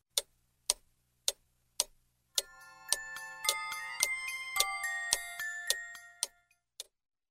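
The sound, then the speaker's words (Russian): A big clock ticking and then playing music: four evenly spaced lone ticks, then a bright chiming melody rings out over the continuing ticks before giving way to a few final ticks. “Мышка подошла к большим часам, и они заиграли чуть-чуть громче.”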